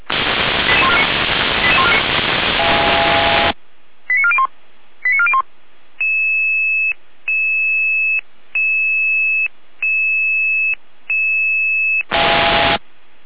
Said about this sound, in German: Einsatz für die alarmierten Kräfte der Freiwilligen Feuerwehr Neustadt. Eingelaufene Brandmeldeanlage. Hier damit Alarmierung.